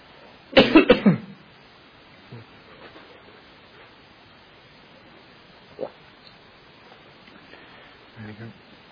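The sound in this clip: A person coughs in a short burst of a few quick, harsh coughs near the start, followed by a few faint, scattered sounds.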